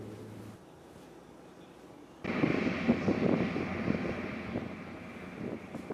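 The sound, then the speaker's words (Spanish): An MQ-9 Reaper military drone aircraft flying, its engine a low, dull drone that jumps sharply in loudness after about two seconds into a steady, rushing roar. “Veamos imágenes oficiales publicadas por el Pentágono que muestran las características de esa moderna aeronave no tripulada, conocida como el Ángel de la Muerte.”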